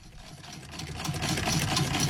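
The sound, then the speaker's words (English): A very old, still fully working hand-cranked sewing machine runs with a steady whirring clatter of its moving parts. It grows slightly louder as it goes, with no talk. “That's the sound of a very old but still very functional hand-cranked sewing machine.”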